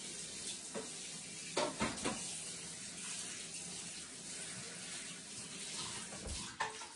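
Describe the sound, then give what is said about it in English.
Running water splashes as a Nordic Ware microwave egg muffin pan is washed out, a steady hiss of tap water with a few louder splashes and clatters. “All right, I'm going to wash it out because I'm going to cook in it.”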